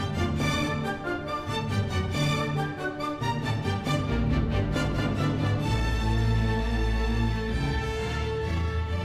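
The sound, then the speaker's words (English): A symphony orchestra plays, with rich sustained chords and layered notes, steady and full throughout, no talk. “That's the sound of the Charlotte Symphony,”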